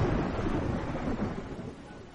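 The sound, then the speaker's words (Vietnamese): Heavy rain pouring down over open ground, a dense, steady roaring wash of noise that eases slightly toward the end, with no talk. “Nước mưa rào rào xóa tung khắp đại địa”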